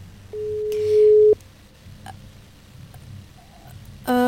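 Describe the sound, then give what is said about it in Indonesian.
A telephone call tone sounds as a call is placed: one steady, mid-pitched tone lasting about a second, then low background noise and a brief, brighter tone at the very end. “ini Rahil mau menghubungi, ke call aja ya.”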